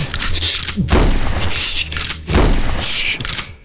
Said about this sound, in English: I'm just going to start opening fire.